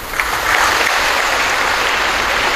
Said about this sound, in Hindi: मुस्कुराकर फोटो खिंचाते हुए उनकी धर्मपत्नी तालियां बजाते हुए